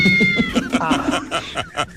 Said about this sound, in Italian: guarda che stavo parlando col gatto.